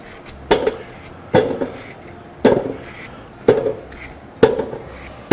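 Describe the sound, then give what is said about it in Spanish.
Knife chopping potatoes in a kitchen, with about six sharp, crisp chops at a steady pace of roughly one per second. Each cut stands out clearly over a quiet background, with no talk. “Vamos a cortar así patatas.”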